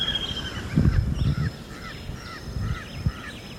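A crow calling in open country, giving many short, harsh caws in a repeated series over a steady low rumble.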